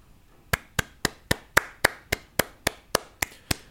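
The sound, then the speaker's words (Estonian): Slow applause from a single pair of hands, about a dozen sharp, crisp claps at a steady, evenly spaced rhythm, with quiet gaps between each one. “see aplaus pole üldse minu tehtud.”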